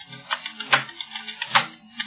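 Keystrokes on a computer keyboard as a root password is typed during Debian system configuration, with many quick, uneven taps in an irregular rhythm.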